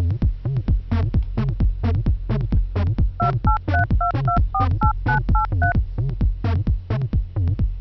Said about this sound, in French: je téléphone à la pharmacie.